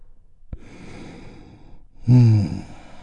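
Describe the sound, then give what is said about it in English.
A deep breath drawn in slowly, then released as a loud, voiced sighing exhale that swells and fades, with a brief click near the start. “let's take a big, deep, healing breath. All together, here we go, and release.”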